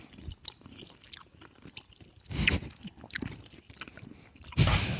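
Chewing and biting on a caramel-filled Brussels Pandora candy, with close, crunchy bites and soft, irregular mouth sounds between louder crunches.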